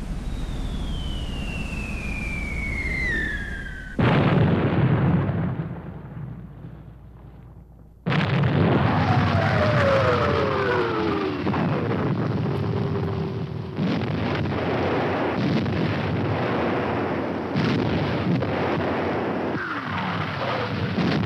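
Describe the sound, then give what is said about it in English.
D-Day invasion bombardment with artillery explosions: continuous deep rumbling blasts with sudden loud onsets, and whistling tones sliding downward in pitch over the roar. “And then the bombardment started.”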